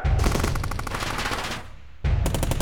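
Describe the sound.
Loud bursts of rapid machine-gun fire after an order to open fire: a sustained rattling volley, a short dip, then a fresh burst of gunfire.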